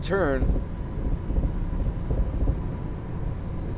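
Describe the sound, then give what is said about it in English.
A car drives past a truck on the road. A steady low rumble of road and wind noise follows a brief voice at the start. “I'm sorry, I had to concentrate on getting past this truck.”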